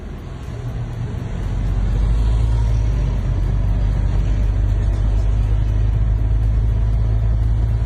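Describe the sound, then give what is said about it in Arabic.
A steady, low engine rumble from a long queue of cars waiting for fuel at the Dummar Project in Damascus. The drone swells slightly after the first second, then holds continuous and even, with no distinct individual passes. “مقطع قصير التقط في مشروع دمر بدمشق، أظهر طابورا طويلا لرتل من السيارات التي ينتظر سائقوها دورهم للحصول على المحروقات.”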